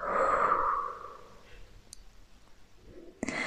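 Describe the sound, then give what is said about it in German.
A forceful breath out, part of a relaxation exercise. It starts loud and breathy, then fades over about a second into quiet, and a brief click comes near the end. “Atme noch einmal ein und atme alle schmerzhaften Gefühle samt der Erwartung kräftig aus.”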